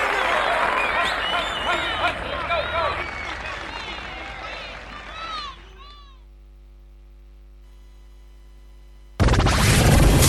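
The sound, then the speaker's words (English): Audience applause and cheering welcoming a performer: loud, dense clapping with high whoops and shrill voices for several seconds, then a drop to near quiet before another loud sound cuts in. “Put your hands together and welcome Christopher Lang!”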